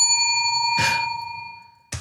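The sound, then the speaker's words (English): A bell rings with a bright, sustained metallic tone that slowly fades, broken by two short knocking or handling noises. “Is that a bunk bed bell? Well, yeah, it is.”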